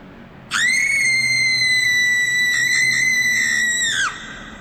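One long, high-pitched scream holds a steady shrill tone for about three and a half seconds, then drops sharply in pitch as it cuts off. A faint low hum sits underneath.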